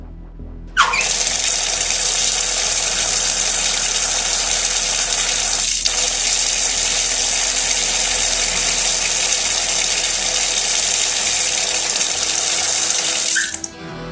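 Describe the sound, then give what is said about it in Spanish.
Water gushes from the hot-water tap of a smart shower. It starts abruptly as a loud, steady rushing hiss, runs unbroken for about thirteen seconds, then cuts off. “Entro en mi ducha inteligente, abro el grifo del agua caliente.”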